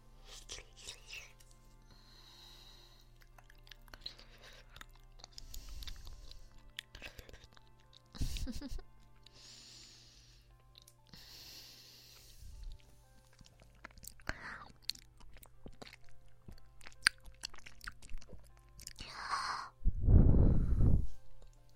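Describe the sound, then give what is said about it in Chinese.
Food being chewed and bitten as bites are shared, soft crunches and wet mouth sounds, faint throughout, mixed with breathy sighs and whispering, and a louder breathy burst near the end. “我吃一口，你吃一口，我吃一口，你再吃一小口。”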